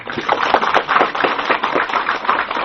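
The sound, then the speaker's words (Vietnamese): An audience applauds during a Buddhist dharma talk, with dense, even clapping that stays loud and steady throughout, with no voices over it. “cho tràng pháo tay.”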